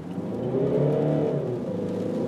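A car engine revs in sport mode, a loud steady harmonic drone that swells and then eases slightly over about two seconds, with no talk.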